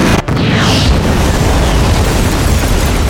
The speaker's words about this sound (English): This time, the front of the general store went up.